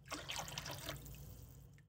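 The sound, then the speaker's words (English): Water sweetened with dissolved sugar and agar-agar is poured into a circular cake mold: a steady splashing trickle runs for about two seconds, then cuts off abruptly. “now that everything is dissolved, I can pour my water into my circular mold.”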